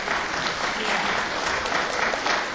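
Audience applause welcomes a guest at a church ministry gathering: dense, steady clapping from a crowd that holds at an even level for the whole stretch.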